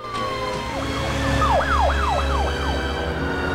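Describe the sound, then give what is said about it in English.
Police car sirens wail from a procession of cars pulling out of a driveway, the siren sweeping up and down in quick repeating cycles over a steady, loud, low rumble of engines. “A procession of police cars head out of the Cartwell's driveway.”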